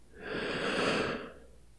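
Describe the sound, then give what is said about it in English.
One deep breath is drawn in during a guided breathing exercise, a soft, airy rush that swells to a peak and then fades, quiet and on its own. “Here, let's just start by taking a few deep breaths together, okay? In.”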